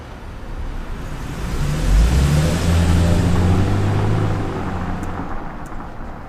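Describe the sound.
A car engine starts and the car drives off, its low rumble swelling and climbing in pitch as it accelerates through the middle, then easing back to a steady hum.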